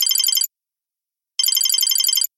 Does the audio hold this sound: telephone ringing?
yes